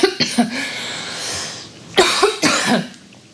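Several dry coughs from a tickle in the throat, arriving in two short bursts separated by a pause, fairly loud and with no talk over them.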